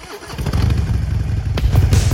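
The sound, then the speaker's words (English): A dune buggy engine starts up, a short low clatter that swells into a loud, steady, throbbing rumble and keeps running to the end. “The gorilla starts off a dune buggy.”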